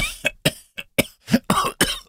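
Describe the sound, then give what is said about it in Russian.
A fit of coughing: seven sharp, harsh coughs in quick, uneven succession, fairly loud and with no other voice. “Ох, этот кашель.”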